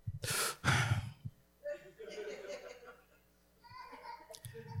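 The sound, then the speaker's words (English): A deep breath, a loud breathy inhale followed by a release of air, comes first. Softer voices talk after it, with a faint laugh-like sound. “Deep breath.”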